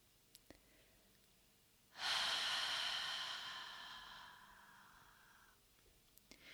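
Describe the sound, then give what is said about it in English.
A long, slow exhale through the mouth during a guided breathing exercise, a breathy rush that starts abruptly and fades gradually over about three seconds, heard alone in near silence. “start a long, slow exhale through your mouth.”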